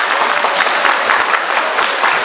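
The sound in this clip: Applause from an audience welcoming a novice monk who has stepped forward to be introduced: dense, steady clapping that holds at an even level for the whole stretch, with no voices standing out.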